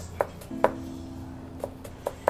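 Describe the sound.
Knife chopping onions, a few sharp, irregularly spaced chops, fairly faint, over a steady low hum that starts partway through.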